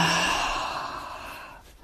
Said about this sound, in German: Und noch ein letztes Mal tief einatmen und ausatmen.